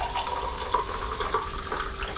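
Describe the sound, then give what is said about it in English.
Hot tea is poured into mugs, making a soft, continuous trickle of liquid that stays fairly even and faint throughout. “I'm just going to pour the tea now. Tea. Pouring the tea, it's very hot, isn't it?”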